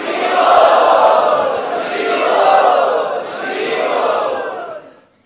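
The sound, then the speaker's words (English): Crowd enthusiastically chanting Harivol in welcome at a gathering: three loud, swelling collective shouts rise and fall in turn, with the last one fading away. “Let us very enthusiastically welcome them by chanting Harivol.”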